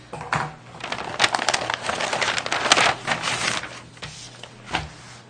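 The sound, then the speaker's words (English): Someone opens a tear-proof envelope, making crackly rustling and ripping of tough material in a few uneven bursts of varying loudness. “It's one of those tear-proof envelopes, I think.”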